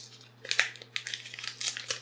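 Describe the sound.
Paper is pulled and torn away from a wrapped parcel box in irregular bursts of crackling and crinkling, some sharper than others. A faint steady low hum runs underneath.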